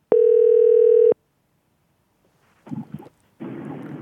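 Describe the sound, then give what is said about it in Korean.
A telephone ringback tone sounds while a phone call is being placed: one steady, buzzing tone about a second long, then silence, then a couple of short, rustling noise bursts. “전화 한번 걸어볼게요.”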